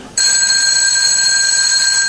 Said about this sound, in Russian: Все, что сидим? Звонок, встаем, выходим.